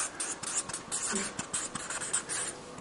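Writing on a board during a classroom lecture, a faint, continuous run of dry, scratchy strokes in an uneven rhythm, with no voices over it.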